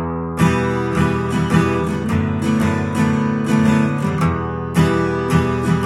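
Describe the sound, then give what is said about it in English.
Guitar strummed in a simplified beginner arrangement, with a different strum pattern on each chord, starting on E minor. Steady ringing strums continue throughout with a few stronger accented hits, and no voice is heard. “I was playing a different strum pattern on each chord, and that's kind of what they do in the song.”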